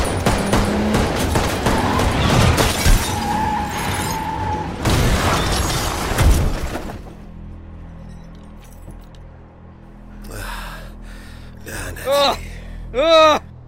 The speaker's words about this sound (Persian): لعنتی عوضی به هم تیر زد. گشتی 23 پاول 1 یه افسر تیر خورده.